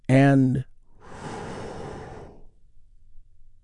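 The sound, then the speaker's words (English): A big, deep breath taken together in a guided relaxation, heard as one long, breathy rush of air that follows a brief spoken phrase and then fades to quiet. “We do that by taking a big, deep, healing breath all together. Here we go.”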